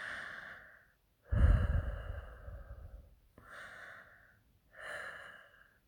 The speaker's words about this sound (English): Let me put my face right against yours. Can you feel my breath?